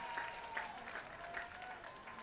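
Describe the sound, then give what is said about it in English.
Faint applause from a baseball crowd after a fan catches a foul ball on a bounce behind home plate. The clapping is steady and low, with no talk. “Probably the biggest applause of the night.”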